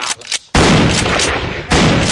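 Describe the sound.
AK rifle gunfire sound effect: after a few softer hits, a loud, dense burst of automatic fire runs on for over a second, dips briefly, then surges again.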